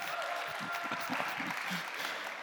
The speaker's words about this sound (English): Let's give him a hand. He does great announcements.